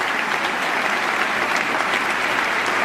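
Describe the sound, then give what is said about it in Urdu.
Sustained applause from US lawmakers during Afghan President Ashraf Ghani's address, a dense, steady wash of many hands clapping at an even loudness for the whole stretch, with no voices standing out. “امریکی قانون ساز صدر اشرف غنی کے خطاب کے دوران بار بار تالیاں بجاتے رہیں اور ان کی حوصلہ افزائی کرتے رہیں۔”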